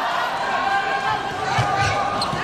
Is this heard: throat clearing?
no